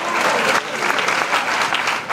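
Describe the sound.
Congregation in Niterói applauding a preacher: loud, dense clapping from a large crowd that carries on without a break for the short stretch.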